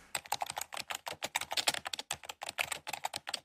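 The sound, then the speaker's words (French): Rapid typing on a computer keyboard, with many quick, crisp keystrokes clattering in an uneven rhythm and no voices. “Voilà, et ça tape et ça pianote.”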